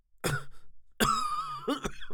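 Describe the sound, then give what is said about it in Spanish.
A fit of coughing: a few harsh, throaty coughs in quick bursts with rasping, voiced catches and throat clearing between them, fairly faint and heard without speech. “Su voz opaca y temblorosa se extinguió repentinamente en un acceso de tos.”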